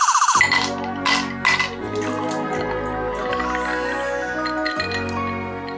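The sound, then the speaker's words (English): Glassy clinks as the lid comes off a bottle of BrewDog Zealot's Heart gin, 44% strength: a few bright, sharp taps close together at the start, then a fuller, sustained sound that stays steady to the end. “I shall get the tonic screwdriver out and get the lid off the gin.”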